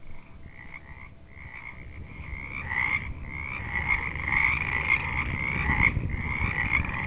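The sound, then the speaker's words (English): Frogs croak in a steady chorus of many rapid, pulsing calls that repeat without pause throughout, growing slightly louder toward the end. “So many of you have written to tell me how you love the frogs as much as we do.”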